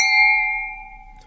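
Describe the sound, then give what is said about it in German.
Glasses clink together in a toast, a single bright ringing chime that sustains and fades slowly, with no talk over it. “erst sollten wir anstoßen. Okay, ne? Dann stoßen wir mal an.”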